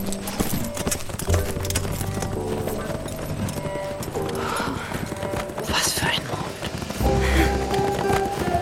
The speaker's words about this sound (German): Oh, da ist ja das Pferd.